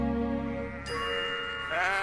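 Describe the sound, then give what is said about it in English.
Sheep bleat loudly near hen houses in a few drawn-out, wavering calls that run almost back to back, with no talk. “This is a pastoral scene, you would agree. All the sheep rubbing up against the hen houses.”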